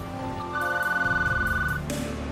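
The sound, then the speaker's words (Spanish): Telephone ringing with an incoming call, one burst of warbling electronic tone that pulses rapidly at a steady pitch, heard alone. “Dos días después, recibe una llamada.”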